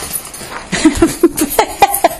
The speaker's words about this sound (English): Pay no attention to the thundering herd. It's the dogs and the cat are in the process of chasing each other around the house and periodically thundering by.